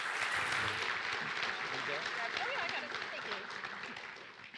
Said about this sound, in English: So give them a big hand and welcome them.